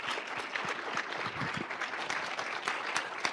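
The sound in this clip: Audience applause at a festival panel event: a steady wash of many hands clapping throughout the few seconds, with no voice over it.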